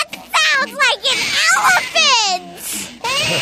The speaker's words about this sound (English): That's you having a temper tantrum when you were a baby.